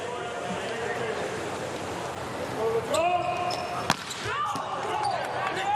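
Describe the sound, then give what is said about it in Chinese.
A volleyball serve in an international indoor match involving Italy: one sharp, brief ball strike stands out over constant crowd noise and commentator talk. “六号罗马诺，范圭内蒂的发球。”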